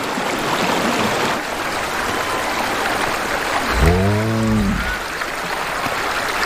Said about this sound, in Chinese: 融水让冰盖下方的河流水位上涨，